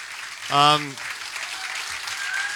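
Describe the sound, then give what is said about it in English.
Audience applause welcoming Kiefer Sutherland on stage at a Radio Woodstock event: a brief loud vocal cheer opens, then steady, dense clapping continues at an even level. “please put your hands together and give a warm Radio Woodstock welcome to Kiefer Sutherland.”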